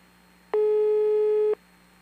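Ringback tone of an unanswered phone call: a single steady low tone lasting about a second, sounding alone over a faint hum.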